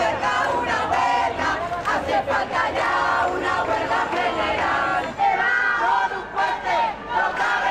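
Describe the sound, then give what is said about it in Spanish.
Marchers at a large housing protest in the capital chant slogans together, loud rhythmic shouting in short repeated phrases with brief dips between them. “Sonidos de una protesta que convocó a miles de personas en la capital, 8.000 según la policía, 50.000 según los convocantes.”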